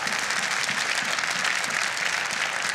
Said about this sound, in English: is this a clap time?